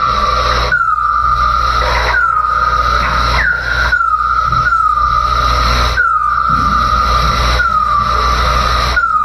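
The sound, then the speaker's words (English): Bat calls recorded near Terry Fox Park along Rue Saint-Jacques with wildlife acoustic microphones. A regular series of short chirps each sweeps sharply downward in pitch, repeating every second or two over a steady background hiss. “This is the sound of a bat recorded near Terry Fox Park along Rue Saint-Jacques. This sound was gathered using wildlife acoustic technology.”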